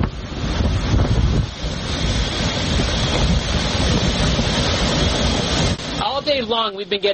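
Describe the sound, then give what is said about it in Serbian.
A storm with heavy rain and strong wind in Miami, Florida, roars as a loud, dense, rushing noise that buffets unevenly throughout, and a voice starts up briefly near the end. “Čitavog dana zasipaju nas jaka kiša i vetar koji obara drveće.”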